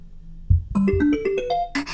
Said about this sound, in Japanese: てか全然止まらない。これ出るまで鳴らすパターン？絶対さっきの SNS 見てかけてきてるよ。